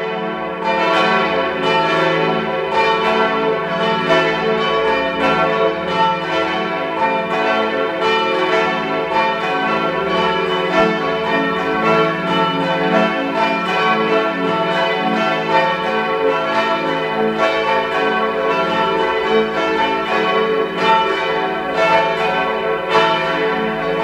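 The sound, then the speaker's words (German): Church bells of the parish church Maria am Gestade in Innsbruck ring out at noon in a loud, sustained peal of several overlapping bells, struck many times without pause. “ist 12 Uhr. Sie hören die Glocken der Pfarrkirche Maria am Gestade in Innsbruck.”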